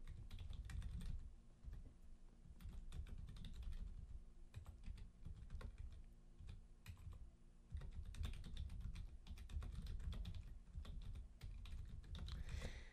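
Typing on a computer keyboard as a message is written: a quiet, continuous run of quick, irregular key clicks with brief pauses between bursts.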